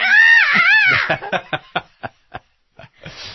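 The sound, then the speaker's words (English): A human voice imitates a small dog yelling rather than barking. A shrill, wavering screech comes first, then a string of short, clipped yelps, loud and alone. “There was one, and actually he sounded like yelling. He wasn't even barking. He was like,”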